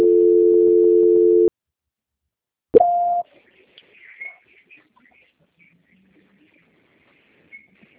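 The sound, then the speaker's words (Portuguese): Telephone tone on an occupied extension line: one steady tone sounds for about a second and a half and stops. After a pause comes a short higher beep, then faint scattered clicks and rustles. “um momentinho, Sandra, que o ramal está ocupado”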